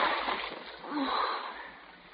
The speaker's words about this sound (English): See what you've done? You dropped it in the water.